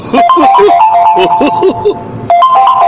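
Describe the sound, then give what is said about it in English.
A mobile phone ringtone signals an incoming call. A loud, bright electronic melody plays a quick repeating phrase, pauses briefly, then starts the phrase again. “Who's calling me? Oh, boy. Let me see. I can't take that call now. How do I take this call?”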